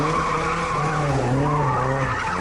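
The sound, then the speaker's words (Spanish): Tires squeal and skid as cars race in an illegal street race, a loud, continuous screech with wavering pitch that holds for the whole stretch. “Así es como suenan las carreras ilegales, que están cada vez más de moda y que son un auténtico peligro para quienes las practican y para quienes las contemplan.”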